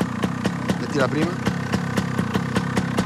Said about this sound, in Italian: Vai, metti in moto, un bel colpo secco.